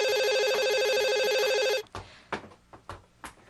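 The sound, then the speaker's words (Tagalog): An electronic telephone ringtone plays loud and steady with a pulsing, repeating melodic pattern, then cuts off and gives way to a few soft clicks and taps. “Aga naman ang tumatawag na to.”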